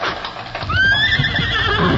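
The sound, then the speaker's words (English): Horses gallop across the stone floor of a canyon at night. A loud, shrill whinny rises and wavers over a continuous low rumble of hooves. “They wouldn't race their horses like that on the stone floor of a canyon, especially in the dark.”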